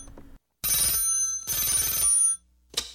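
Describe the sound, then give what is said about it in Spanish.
A telephone bell rings for an incoming call: two long, loud, metallic ringing bursts back to back, followed by a brief third burst. “al parecer estoy recibiendo la segunda llamada.”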